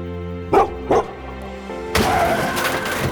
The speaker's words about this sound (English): he barks, but they don't see. Boy hears the dog,